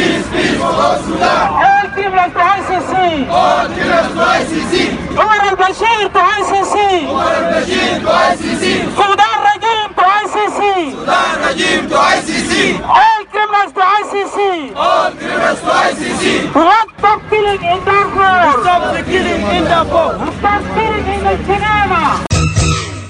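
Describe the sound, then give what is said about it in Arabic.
Protesters chant slogans in unison at a London demonstration against the war and killing of civilians in Darfur, a loud, rhythmic crowd chant that carries on throughout with a few brief pauses. “وقال المتظاهرون في هتافات بلندن في هذا الخصوص”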